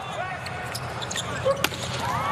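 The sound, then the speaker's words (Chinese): A volleyball serve by Romano in a match against the US team, one sharp hit standing out from a steady rumble of arena crowd noise. “罗马诺的发球，好发球，”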